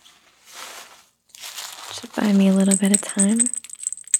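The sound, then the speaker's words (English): A baby chews on and shakes a rattle, making soft crinkly rattling and scattered small clicks that grow louder in the second half, where a short voiced sound also rises above the noise. “Oh, are you eating the rattle? Is that a yummy rattle?”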